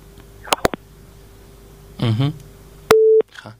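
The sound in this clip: A telephone busy tone follows a caller's line being cut: a few sharp clicks and a brief muffled burst, then one steady mid-pitched beep, with a faint constant hum underneath.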